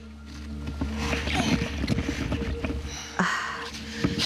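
A boat being lowered into water: a steady low rumble with knocks and rustling, then a louder splash-like burst near the end.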